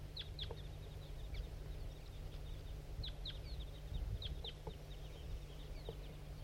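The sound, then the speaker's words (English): Big flock of crossbills flying over, giving many short, high chirping flight calls in scattered bursts above a steady low rumble. “There goes another one. Big flock of crossbills just flew over.”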